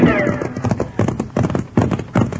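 Horses ride along with hooves clip-clopping in a steady, rhythmic series of many hoofbeats, each a crisp knock; the riding is part of a Western ranch scene.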